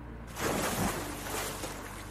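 A splash as a person is pulled into the water: a sudden loud burst of rushing, churning water that swells quickly and then keeps washing on for about two seconds.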